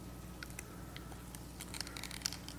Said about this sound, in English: Peel your cups open.